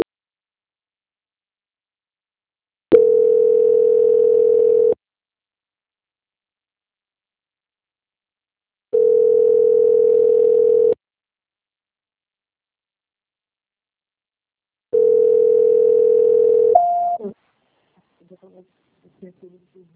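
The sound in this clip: Telephone call transfer tone: three identical steady mid-pitched beeps, each about two seconds long, separated by even pauses of equal length. The last beep ends in a brief higher tone, followed by a few faint clicks.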